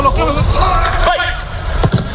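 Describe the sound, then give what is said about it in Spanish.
A football training session on the pitch, with voices calling out over a busy outdoor background and a few dull thumps of the ball. “este es el sonido de Mourinho entrenando hoy en Valdebebas.”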